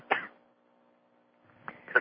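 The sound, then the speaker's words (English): A person coughs: one short cough, a long quiet pause, then two more quick coughs close together, all fairly faint. “Excuse me, I'm going to cough again.”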